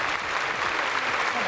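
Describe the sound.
A crowd applauding in Barcelona's Plaza de Cataluña during a moment of mourning: dense, steady clapping that stays loud and even throughout, with no pauses or swells.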